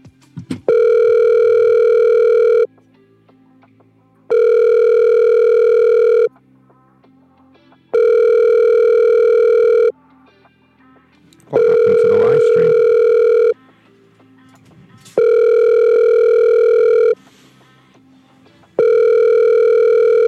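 A telephone rings unanswered while someone calls to book a hair appointment: six long, steady electronic buzzing rings of about two seconds each, separated by short pauses of faint background noise, the last ring cut off.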